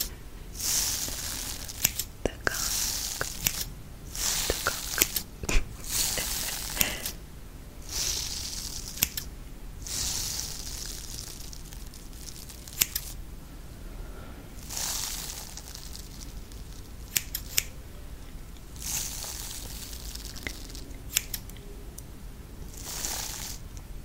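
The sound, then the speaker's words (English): Scissors snipping over and over, many crisp cuts spread across a long stretch, each a short papery snap, some in quick runs and others spaced out, steady and moderately loud with no talk. “As I snip away,”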